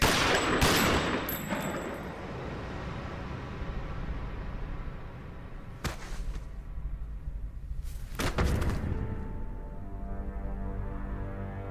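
Gunshots ring out as a countdown ends: a few sharp, loud bangs stand out from a steady noisy background, spaced several seconds apart.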